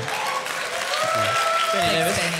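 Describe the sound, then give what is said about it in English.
Applause from an audience: a steady, dense wash of clapping throughout, with a man speaking over it. “No other room would that get a round of applause.”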